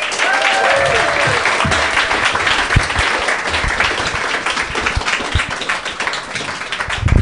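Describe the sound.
Live audience applause at a stage show as the host walks out: dense, steady clapping that stays loud for the whole stretch.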